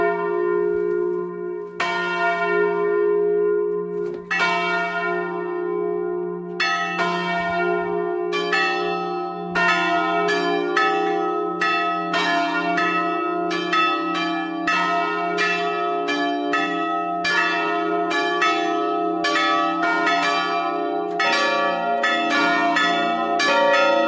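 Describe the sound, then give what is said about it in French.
A church bell rung by hand, sounding a full peal: many loud, ringing strikes with long overlapping decays, sparse at first, then coming quicker and denser throughout. “Nous, on prend la main avec la bélière pour sonner le glas ou pour sonner une volée et on l'envoie de notre cœur.”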